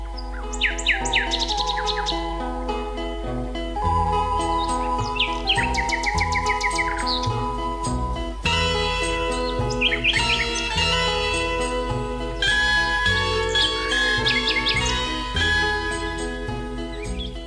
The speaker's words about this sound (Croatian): Slavuj pjeva danju i noću. Umjetnička i melodična pjesma slavuja ostavlja najveći utisak kada se mužjaci takmiče u noćnoj tišini.